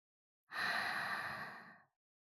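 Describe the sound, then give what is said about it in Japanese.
A single long exhale, part of a guided breathing exercise of breathing in through the nose and out through the mouth, starts abruptly and fades gradually, heard alone in silence. “鼻から息を吸って。口から息を吐いて。”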